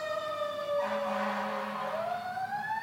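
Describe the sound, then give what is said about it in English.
Emergency vehicle siren on a street in Washington, DC: a steady wailing tone with strong harmonics that climbs in pitch toward the end, sounding alone without talk. “Pardon the sirens behind us. We'll have to edit this out.”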